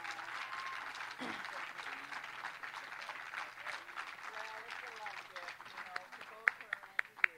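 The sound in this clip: Audience applause for a performer: steady, dense clapping continues under talking voices, ending in a few louder, sharper individual claps.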